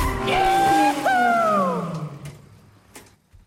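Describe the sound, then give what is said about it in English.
Tires squeal as a car drifts with the handbrake on along a mountain road: two sustained, high screeches over a falling engine note, then the sound fades away with a few faint knocks. “They move to the mountain road, gear change, handbrake on, and drift.”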